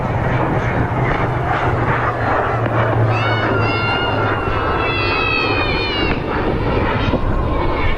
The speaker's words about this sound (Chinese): 正在滑上跑道的，马上就要起飞的是我们空军的绿鲸指挥机空警五百，空军五百。